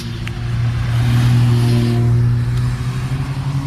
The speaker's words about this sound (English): Got one from the other side of the street, too. Pretty Porsche.